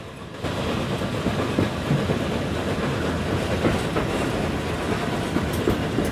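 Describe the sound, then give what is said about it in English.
A steam train passing, with the rhythmic clickety-clack of its wheels over the rails rising sharply at the start and then rumbling on steadily and loudly. “Then on the driver's side, a small group of people has gathered to watch the train pass from behind a 5-bar gate.”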